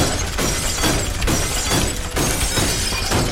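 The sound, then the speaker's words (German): Safes being smashed in a video game: loud, dense crashing and shattering impacts that follow one another almost without a break, with brief dips between bursts and no voices. “Ich hüpfe mal schnell zu den Tresoren, um die kaputt zu machen.”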